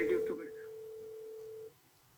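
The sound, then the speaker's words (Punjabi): A steady single-pitch phone tone sounds as a call disconnects when a second call comes in. It holds for about a second and a half, then cuts off abruptly, with a brief voice at the very start. “ਸਾਡਾ phone ਨਾ ਵਿੱਚੋਂ ਜਦੋਂ ਕਾਲ ਦੂਸਰੀ ਆਉਂਦੀ ਹੈ ਉਦੋਂ disconnect ਹੋ ਜਾਂਦਾ ਹੈ”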